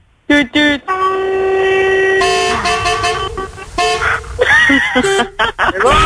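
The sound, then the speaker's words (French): Truck horn honking: a couple of short blasts, then a long, loud, steady blast, followed by further wavering horn tones and brief bursts. “Oh non, c'est bon ça le camion, elle fait péter le klaxon pour voir là.”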